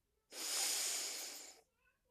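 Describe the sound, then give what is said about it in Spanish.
A forceful exhale through the nose follows a held breath in a breathing exercise: one strong, airy rush of breath lasting just over a second, rising quickly and tailing off, alone with no talk. “Vas a mantener el aire unos segundos y vas a soltarlo fuertemente por la nariz.”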